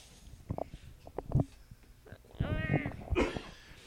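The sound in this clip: A cat: a few short thumps and clicks, then a drawn-out, wavering meow-like cry with a rich harmonic tone.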